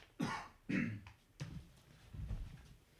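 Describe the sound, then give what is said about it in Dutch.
Coughing and throat clearing from someone rolling cigarettes: a few rough, low bursts spaced through the moment, with quieter fainter rasps toward the end, and no talk over them. “Er wordt hier even shaggy gedraaid en gehoest.”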